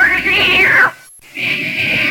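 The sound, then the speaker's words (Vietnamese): A cat gives two drawn-out, loud meows separated by a short silence. The first arches up and then down in pitch. “Con mèo khốn kiếp.”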